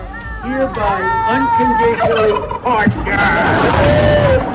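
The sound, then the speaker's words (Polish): Turkey gobbling at a turkey-pardoning ceremony in the White House Rose Garden: repeated warbling, throaty calls rise and fall in bursts, with voices and other sounds mixed in. “w Ogrodzie Różanym w Białym Domu, w trakcie której indyki zostały ułaskawione, Donald Trump starał się porozmawiać z jednym z nich. Było mnóstwo śmiechu, gdy ten podjął konwersację.”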